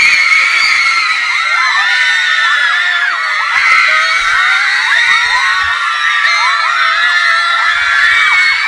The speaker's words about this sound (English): You hear the sound like when the Beatles take the stage.